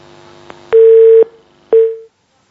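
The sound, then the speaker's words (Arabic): Telephone tone heard after a caller's line drops during a phone-in program: two loud, steady single-pitch beeps, the second shorter, following a faint hum. “الاتصال انقطع.”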